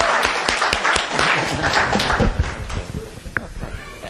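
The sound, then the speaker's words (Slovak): Audience clapping to welcome a speaker at a Slovak church gathering, dense and lively at first, then thinning into scattered claps. “trošku mu zatlapkajme na privítanie”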